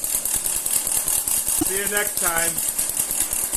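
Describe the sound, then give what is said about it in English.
A small Tesla coil powered by a quadruple Bonetti machine gives off a rapid, regular buzzing crackle of pulses with a steady high hiss, while a voice is briefly heard partway through. “We are driving our small Tesla coil off of a quadruple Benetti machine as its power source.”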